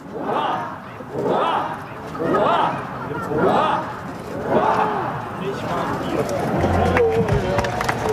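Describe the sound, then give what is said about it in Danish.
A crowd gathered at Amalienborg Palace gives a rhythmic ninefold cheer for the Danish king, who is waving from the balcony on his 58th birthday. Loud group shouts come in regular bursts about once a second, then merge into sustained cheering. “Og jeg har fisket lidt lyd ud, og så var der lige nifoldigt leve her for kongen.”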